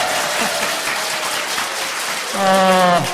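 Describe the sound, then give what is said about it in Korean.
Applause from an assembled church audience comes as a steady, dense wash of clapping. A voice rises over it near the end. “박수 한번 부탁드립니다.”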